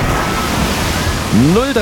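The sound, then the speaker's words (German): A water splash sound effect tied to a water-park resort with many slides. It is a steady, full rushing wash of water noise that runs the whole clip, with a brief gliding, voice-like tone rising and falling near the end. “Also achtet auf diesen Wasserplatsch hier.”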